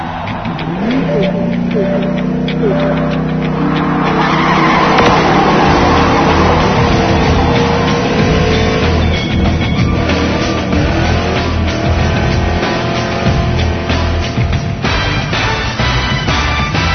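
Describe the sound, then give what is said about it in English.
Race cars roar and rev at the start of a race in the Rail Racer video game: dense, continuous loud engine noise with tire squeal, and a voice speaking over it. “Join existing game. Create new game. Start new race. Prepare to race.”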